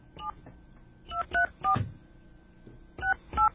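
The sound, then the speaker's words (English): Touch-tone beeps of a telephone number being dialed: six short dual-tone notes, one alone, three in a quick run, then two more after a pause, over a faint steady tone. “Let's call this number now.”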